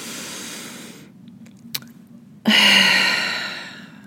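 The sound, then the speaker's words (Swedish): Someone takes a slow, deep breath to calm down: a soft airy breath, a brief pause with a faint click, then a louder, long sighing exhale that gradually fades. “Så att jag behöver ta ett djupt andetag, känner jag. Ni får gärna vara med mig om ni vill.”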